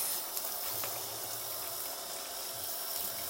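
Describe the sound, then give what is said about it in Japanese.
Running tap water rinsing dishes after detergent washing, a steady, continuous hiss that stays even and unbroken throughout, with no talk. “洗剤で、えー、洗う作業は終わりましてあとはすすぎになります”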